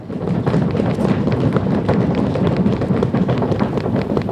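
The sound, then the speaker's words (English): An entire audience stomps their feet on the floor. The dense, loud rumble of overlapping thuds holds steady throughout without pause. “That's the sound of an entire audience stomping their feet.”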